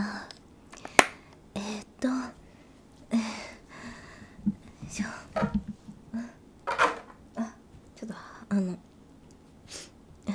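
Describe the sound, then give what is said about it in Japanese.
A toy knocks against a plastic tray with one sharp, brief click early on, while soft whispered speech continues quietly throughout. “おもちゃ入ってた、なんかプラスチックトレーに当たっちゃった、音がした”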